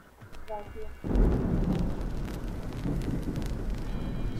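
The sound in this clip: Rain and thunder: after a brief voice, a loud, steady downpour with a deep rumble comes in at about one second and keeps going.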